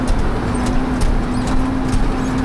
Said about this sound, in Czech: Pěkně s autem jenom skáčeme v těch dírách.